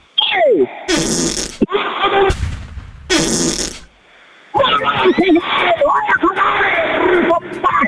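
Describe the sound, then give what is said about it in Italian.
Loud, spluttering fart sounds come in a few long, rasping bursts separated by short gaps, with people talking between and over them. “Ha sentito che bomba che mi è uscita dal culo?”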